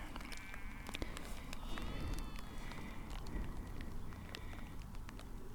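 Footsteps walk through the foggy, damp Dorset countryside. The steps are soft and fall in a steady rhythm over a continuous outdoor background.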